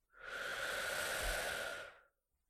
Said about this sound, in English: Breathe in.